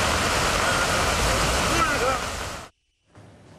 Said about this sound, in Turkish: Bu görüntülerde Adana'dan. Şiddetli yağış nedeniyle cadde ve sokakları su bastı. Bazı alt geçitler suyla doldu. Araçlar yolda ilerlemekte güçlük çekti.